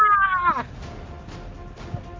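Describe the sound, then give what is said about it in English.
A human voice imitates a cat-like screeching wail: one high, strained cry lasting about half a second that bends downward in pitch at the end, followed by near quiet. “immediately looks at Lula, looks straight to the sky, and screeches with a cat-like wail. With an ah!”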